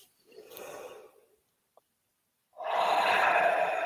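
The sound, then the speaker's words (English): A collective deep breath: a slow, airy inhale, then after a short pause a louder, fuller exhale that holds steady to the end, with no talk over it. “Maybe we can take a collective, like, deep breath.”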